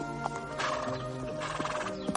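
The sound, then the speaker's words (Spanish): Hooves clip-clop as a horse is ridden in a courtyard, with a few sharp hoof accents over a steady, busy background and a brief whinny-like cry. “Mendoza sujeta la puerta del caballo que monta su hermano.”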